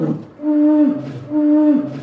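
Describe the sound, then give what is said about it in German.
A very large, heavy polar bear gives two long, low, moaning roars, each tonal and drawn out before dropping away, loud and with no voices. “so hört sich ein Eisbär an. Ein richtig großer, dicker Eisbär.”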